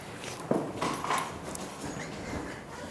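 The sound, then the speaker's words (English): Footsteps climbing the stairs in an apartment building, a few firm treads thudding at an uneven pace over a steady background hiss. “Going up the stairs. I live in an apartment, by the way, obviously.”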